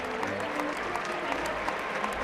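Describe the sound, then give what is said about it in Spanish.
Ovation at a bullfight: a bullring crowd applauds a Peruvian bullfighter with dense, steady clapping that holds at an even, fairly loud level for the whole stretch, with no voices standing out. “pues hay una ovación, ¿eh?”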